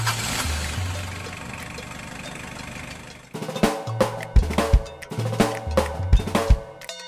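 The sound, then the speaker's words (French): A car engine runs with a steady, rumbling drone for about three seconds, then gives way to a rhythmic series of loud, pounding pulses that repeat at a regular pace. “C'était une voiture.”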